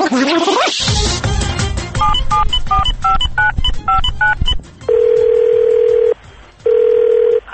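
Touch-tone dialing of a telephone call from an unknown number: a quick series of short paired beeps, followed by two long, steady, mid-pitched ringing tones separated by a brief gap.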